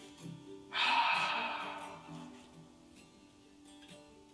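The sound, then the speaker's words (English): A voice imitates a long outward breath, the breath of life, starting as a sudden breathy rush and fading slowly over a couple of seconds. “It's the breath of life.”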